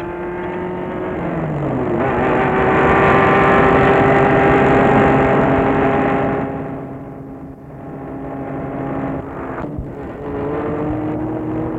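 A car driving along the road toward Lyon: a steady engine and road drone that swells louder, eases, then holds at a constant level, with no talk.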